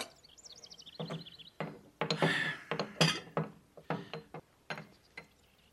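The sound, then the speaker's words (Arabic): Dishes and cutlery clink as food is served at a meal: a run of sharp, bright clatters and knocks in an irregular rhythm, fairly loud, with no talk. “صب الطعام واسكتي. هيا تفضلوا.”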